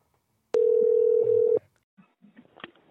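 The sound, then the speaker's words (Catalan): A telephone dial tone sounds on an outgoing call: one steady, mid-pitched tone holds for about a second and then cuts off, followed by faint, scattered clicks and low noises. “Llavors, he intentat trucar.”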